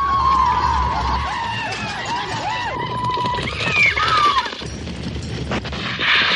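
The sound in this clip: Horses gallop across the desert in a mounted battle charge, with a dense, continuous rumble of hooves under loud wavering cries and shouts, and a few sharp cracks like gunfire amid the commotion.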